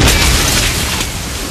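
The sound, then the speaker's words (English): Loud explosion from a thrown Panzerschreck bazooka shell in a wartime battle: a dense, rumbling blast that fills the whole moment and eases only slightly toward the end. “Spotting it, Ryan bangs another shell. Panzer Schreck! He hurls it, and the German explodes.”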